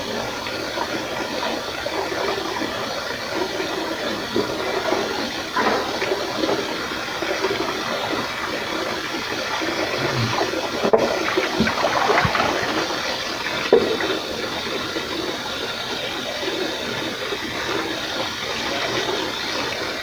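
Water running steadily while clothes are washed by hand, a continuous rushing splash with a few small sloshes and knocks over it and no voices.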